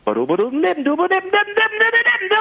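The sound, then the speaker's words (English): Scat singing: a solo voice imitates a saxophone line with quick, clipped syllables, its pitch gliding upward early on and then holding higher notes. “Scatting is really, it's just making the sound or imitating the sound of an instrument with your voice. So, like, if you're trying to do something that a saxophone would play with your voice, it might sound like,”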